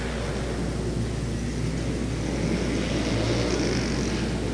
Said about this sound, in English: White flag for Verano. Riding what appears to be a 450 Yamaha. Followed by a Honda 4-stroke.